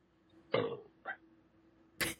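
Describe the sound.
Burps, three short throaty bursts separated by quiet gaps, the first the longest and loudest, with no talking.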